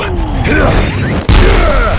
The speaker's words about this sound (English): Roxen was lifted bodily from the force of the blast, his arms releasing Rona as he was knocked momentarily unconscious by the force of the blast.